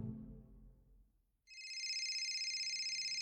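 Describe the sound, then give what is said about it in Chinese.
A mobile phone ringtone sounds as a steady, bright, high-pitched tone that pulses rapidly and evenly. It starts abruptly after a low, fading sound and then holds at a constant loudness. “手机铃声响起的时候”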